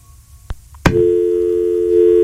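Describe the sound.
A telephone call fails to connect: a couple of sharp clicks, then a steady, unbroken line tone at a constant pitch that holds to the end.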